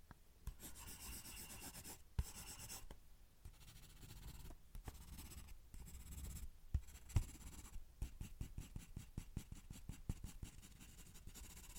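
A drawing tool scratches and rubs on paper while a portrait's facial features are sketched. Faint, continuous short strokes and rasps with brief pauses, no voices.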